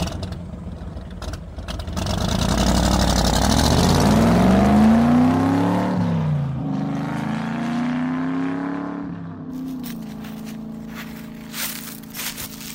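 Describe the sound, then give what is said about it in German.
A car drives off, its engine revving loudly and rising in pitch, dropping briefly at a gear change, climbing again, then settling into a steadier, quieter drone. “Ich fahre jetzt erstmal Brötchen holen.”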